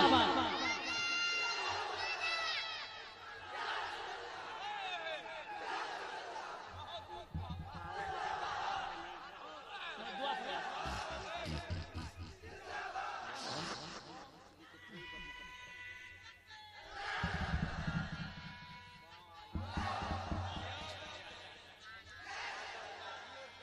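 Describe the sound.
A crowd at an Islamic poetry gathering shouts religious slogans in reply to a speaker. Bursts of massed voices rise and fall in repeated waves, fairly faint overall, with stray individual voices and chatter between the shouts.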